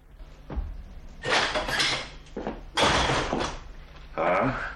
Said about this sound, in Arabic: من بالباب؟ عبد الله بن مسعود. يا بنت أبي بكر افتحي له يا ليلى.